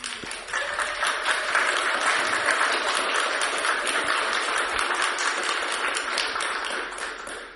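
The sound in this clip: An audience applauds during a church service, many hands clapping in a dense, crackling patter that stays level for several seconds before easing slightly at the close.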